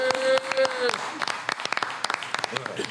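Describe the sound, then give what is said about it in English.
Scattered audience applause: a sparse, uneven run of sharp individual claps that rises and falls in density rather than building into a full ovation. “Let's make some noise for that.”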